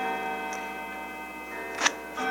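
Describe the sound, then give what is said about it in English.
Clocks striking all around: a few bright metallic strokes ring over a sustained, bell-like harmonic hum, with the strongest strike near the end. “Well, the clocks are striking all around us, so we'll conclude at that point.”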